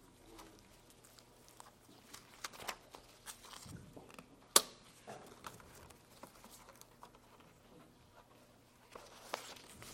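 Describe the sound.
A preacher shuffles and reorganizes his paper notes, making faint papery rustles and light taps, with one sharper snap near the middle.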